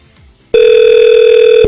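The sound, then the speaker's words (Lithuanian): Ringing tone on a telephone line after a number is dialed, a call placed from a radio studio to a listener: one steady, loud electronic ring burst of about a second, cut off sharply, with no voices. “aš renku telefono numerį”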